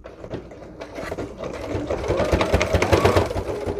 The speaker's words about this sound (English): All right, here we go. And we're sewing.